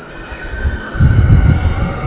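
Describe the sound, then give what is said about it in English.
A roller-coaster train of light-cycle ride vehicles passing overhead: a low rumble that swells suddenly into a steady, loud roar and then holds, with no talk. “That's the train. That's the light cycles. Excuse me. It just passed overhead.”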